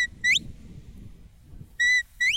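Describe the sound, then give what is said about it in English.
Three sharp, high shepherd's whistle blasts direct working sheepdogs, the first and last gliding upward at the end and the middle one held steady, over a low rumble. “He also trains his dogs to respond to whistles so he can direct one dog at a time.”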